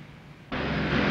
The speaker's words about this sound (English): A plane comes in to land on the runway